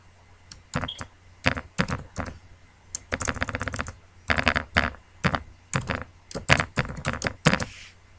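Password being typed on a computer keyboard during an online sign-up, many sharp key clicks in quick uneven bursts separated by short pauses, with no voices.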